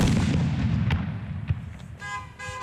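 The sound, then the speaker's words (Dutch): Heavy fireworks thrown by AZ supporters into a stadium during the AZ-NEC football match. Two sharp bangs cut through a dense crowd roar, followed by a tooting horn near the end. “En het is geen licht vuurwerk ook dat hier door de Alkmaarse supporters naar binnen wordt gegooid.”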